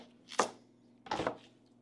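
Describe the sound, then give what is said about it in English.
A knife dices a red onion into small pieces, making two soft, quick chopping bursts about a second apart, faint and alone. “What do we need? That red onion. Okay. What? Small dice on that one. Dice, okay. Probably not even all of it. Half of it.”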